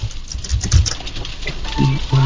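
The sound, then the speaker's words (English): Rain falls outside a studio as a steady, fairly loud patter of dense tiny impacts, continuous without a clear break. “Oh, cool, it's raining.”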